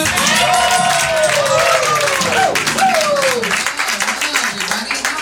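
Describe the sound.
Applause and cheering from a live comedy show audience at the Comedy Store greet the host, a dense, loud, continuous roar of clapping with a man's voice speaking over it.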